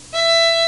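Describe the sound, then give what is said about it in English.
An open E string, the highest string, rings out as a single steady, bright note with rich overtones, beginning sharply and held for about half a second. “Now we're going to do the same thing on the E string, which is the highest string. It sounds like this. So it went all the way over on the right. So we're going to play the open E.”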